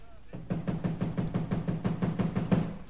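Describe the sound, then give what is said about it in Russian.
Rapid, steady knocking on a locked door, many evenly spaced blows in a continuous run, fairly loud with a dull, hollow thud. “Еще стучи!”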